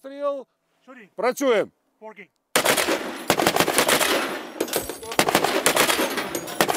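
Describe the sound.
Machine-gun fire in a video game from a heavy weapon. It is very loud, with rapid, dense, continuous bursts of shots that follow a short vocal sound at the start.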